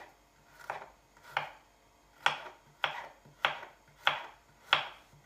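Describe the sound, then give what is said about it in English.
A knife finely chops one big clove of garlic on a board: seven crisp, evenly spaced strokes, each a short sharp tap, heard alone without talk. “It's one big clove of garlic, finely chopped. Add to our mixture.”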